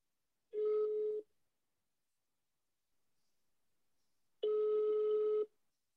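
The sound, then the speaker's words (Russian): Telephone ringback tone of an outgoing call: two long, steady buzzing tones about four seconds apart, with quiet in between. “Поэтому предлагаю позвонить Владе и задать ей все вопросы. Ну что, давай звонить тогда.”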